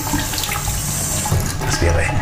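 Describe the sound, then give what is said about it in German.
Water running from a tap as a bowl is rinsed beneath it, a steady loud splashing rush with shifting spatters as the bowl moves in the stream. “Den brauche ich jetzt mal kurz abspülen.”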